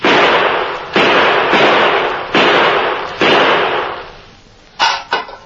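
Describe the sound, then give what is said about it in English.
Gunshots fired at a tin can on the ground: a rapid series of loud, sharp cracks, each trailing off in a long hissing decay, followed by two short, abrupt shots close together at the end. “Five bullets can put that tin can into the well.”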